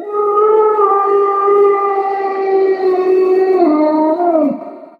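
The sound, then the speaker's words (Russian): A long, loud howl rings out during a fight with dogs in deep snow. It holds one steady pitch for several seconds, then dips and fades at the end. “И тут раздался вой.”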